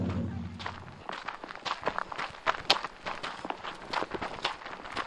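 Footsteps of a walker starting a climb up a hill behind a house on the Colville Indian Reservation in Washington State, a steady series of many crunching steps at a moderate, even pace, fairly faint, after a brief low hum at the start.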